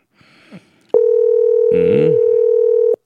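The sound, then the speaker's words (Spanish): A telephone dial tone sounds while someone is being called: a single loud, steady mid-pitched tone that starts abruptly, holds unbroken for about two seconds and cuts off sharply. A brief voice overlaps it midway, and faint sounds come just before it. “Y le estamos llamando, ¿no? Una vez más para que no nos diga que no le llamamos después.”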